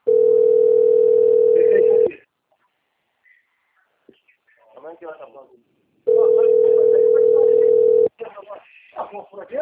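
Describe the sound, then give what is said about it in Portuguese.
A telephone ringback tone sounds while a call is being placed: two long, steady beeps of about two seconds each, separated by a pause. A person talks quietly in the gap and again after the second beep. “Vou ligar pra ela um pouquinho da tua.”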